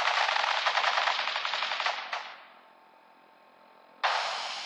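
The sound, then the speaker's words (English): Police officers open fire in a rapid, loud volley of gunfire lasting about two seconds. It fades into a lingering hiss, then a fresh burst of shots erupts near the end, with no voices. “Stop or we'll shoot. Men, open fire.”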